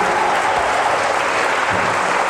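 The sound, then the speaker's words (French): Dense, steady applause from a church audience, a loud continuous wash of clapping hands that holds evenly throughout without pause. “Est-ce que, est que tu peux encore acclamer Dieu pour la vie du berger Abbé Didier”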